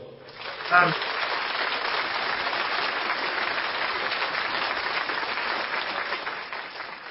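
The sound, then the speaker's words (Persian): A brief voice is followed by applause that swells quickly into a dense, sustained clatter of many hands, holding steady for several seconds before thinning slightly at the close. “دفع استخار خودت بزن عزیزم لطفا آدم که به افتخار خودش دست نمیزنه”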